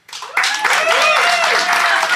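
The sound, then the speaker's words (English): Applause from a live studio audience voting on a court case: dense, steady clapping that starts abruptly and stays loud throughout, with a few voices mixed into the crowd noise. “I'd like you to applaud now.”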